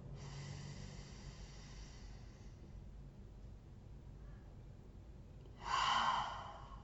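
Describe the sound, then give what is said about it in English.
Deep breathing in through the nose and out through the mouth during a guided breathing exercise: a long, soft, airy breath fades out, followed after a pause by a louder, short gust of breath near the end. “we're just going to take in three deep breaths in through our nose and out through our mouth. So breathe in.”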